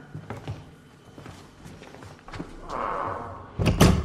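A door opens with soft knocks and shuffling thuds that build to a louder clattering thump near the end, with no talk.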